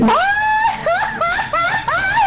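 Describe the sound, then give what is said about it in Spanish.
A traditional Mexican grito rings out from one voice: a loud, high, sustained cry that breaks into a quick series of warbling, yelping bursts with rapidly rising and falling pitch. “me manden su grito, el más mexicano que les pueda representar.”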